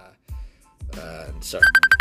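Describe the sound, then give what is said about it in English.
Electronic phone ringtone from an incoming call: a rapid run of short, bright, evenly spaced beeps enters near the end, after a few low, muffled thumps and murmurs. “sorry, friend, I just got a phone call. Oh my god, he keeps phoning me”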